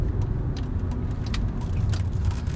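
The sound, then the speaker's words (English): A car's engine rumbles low and steady as it drives into a residential complex on an evening commute, with a few faint clicks and taps scattered over the hum. “Now, we're about out of time, so as I drive into my complex and I finish off my evening commute, I'll leave you with one final thought.”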